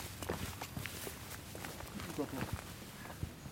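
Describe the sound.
Footsteps along the walk from the palace to the Badenburg: soft, many light steps pattering steadily beneath continuous talking, faint overall.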